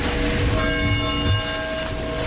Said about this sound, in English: Bells of mourning in Newtown, Connecticut today, a week after more than 20 people were caught, shot, and killed in a mass shooting.